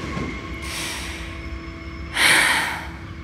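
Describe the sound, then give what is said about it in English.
Deep breath taken while collapsing onto a bench on a train platform: a faint breathy rush is followed by a louder, longer hissing breath over a steady low rumble, with no talking. “I collapse onto the bench that still holds my purse and take a deep breath.”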